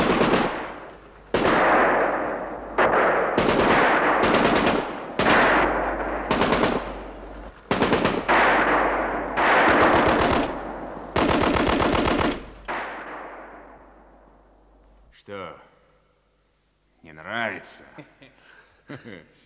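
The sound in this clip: Machine gun fire in a dramatized battle scene rattles out in many loud, rapid bursts separated by short gaps, then gives way to voices talking near the end.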